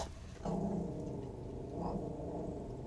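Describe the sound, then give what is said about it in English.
A dog growls in a low, rough rumble that starts suddenly and holds steady for a couple of seconds, with a slight swell near the end. “we're just gonna ignore my dog.”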